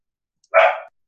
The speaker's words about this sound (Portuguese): Meus cachorros estão lindamente gritando aqui no quintal.